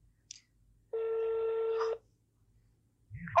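Electronic telephone tone heard while placing a call. A single buzzy, steady beep with stacked overtones sounds alone for about a second, with a faint short blip before it and a brief low sound at the very end.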